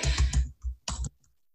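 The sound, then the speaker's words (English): Typing on a computer keyboard: a quick run of clattering keystrokes, then a brief pause and a few more short bursts of key clicks, with no voices. “You guys get to listen to me type as I do this.”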